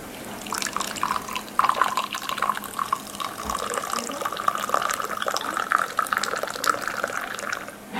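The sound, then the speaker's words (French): Water poured into a drink to cut it with a little water, a steady splashy trickle running for several seconds without talk. “Alors, on va servir comme on fait au bled. Je me mets un peu d'eau.”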